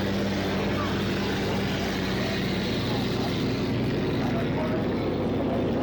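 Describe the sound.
Engine roar of the Budweiser race boat passing on the course before a boat race, a loud, dense, continuous rumble that stays steady from start to finish.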